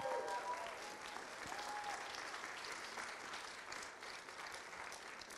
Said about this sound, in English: Let's give the Lord a clap offering. He's a good God.